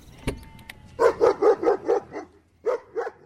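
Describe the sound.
A dog barks alone, with one sharp click before it. Six quick, evenly spaced barks come in a run, the last one softer, and after a short pause two more loud barks follow.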